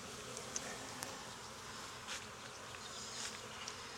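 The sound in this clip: Honeybees buzz around an open beehive during an inspection: a steady, faint drone of many insects with a few soft clicks and brief louder swells, and no voices.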